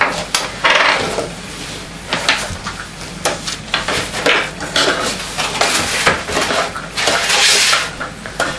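Dishes, pots and cutlery clatter and clink during cooking in a kitchen, a busy, uneven run of knocks and scrapes lasting throughout at moderate loudness.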